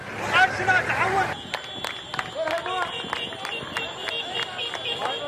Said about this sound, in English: What you're hearing is residents of the city clapping and cheering as fighters drove in pickup trucks around the city in a show of force.